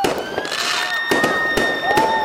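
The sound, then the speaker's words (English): Pirates being blown up produce sharp, crackling explosions like fireworks. Bursts come in a rapid, dense series over a continuous roar, with thin whistling tones above them. “The pirates are all exploding from it.”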